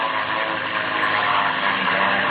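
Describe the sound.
Airplane engine drone from a radio drama effect of a plane flying and banking, a steady, loud, unbroken roar with no clear change in pitch.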